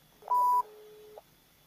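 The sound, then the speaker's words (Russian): A telephone dials a number, producing a short, bright electronic tone over a steadier, lower hum that ends with a faint click. “Звоним председателю гаража.”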